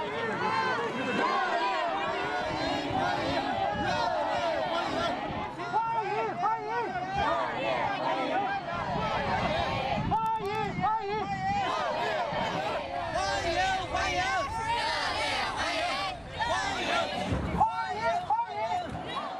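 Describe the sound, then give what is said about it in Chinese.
A crowd of overseas Chinese and students lines a roadside to welcome Xi Jinping, filling the air with a dense, continuous mass of voices calling out and cheering. “习近平乘车从机场赴厦大饭店途中，华侨华人和留学生代表聚集在道路两旁，挥舞中美两国国旗，热烈欢迎习近平主席的到访。”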